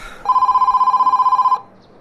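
A telephone rings in one sustained burst of just over a second, a loud, rapidly warbling electronic trill that cuts off abruptly into near silence.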